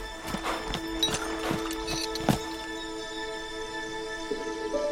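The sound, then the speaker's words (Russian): Hooves of a horse walking along a forest path, several distinct clip-clops in an uneven walking rhythm, fairly soft over a quiet, steady tonal background. “По лесной дорожке, сидя на лошади, едет Лючила.”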